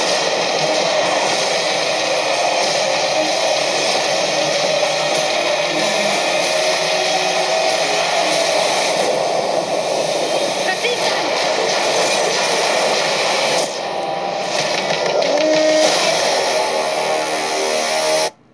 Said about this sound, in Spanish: Ustedes ahí escuchaban, es un gran y enorme tren